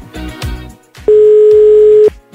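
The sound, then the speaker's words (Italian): A telephone's ringing tone on an outgoing call: one loud, steady, single-pitched beep lasting about a second, preceded by soft handling clatter and followed by quiet. “Vediamo, vediamo se suona. Ecco, è libero, è libero. Vediamo se ci risponde.”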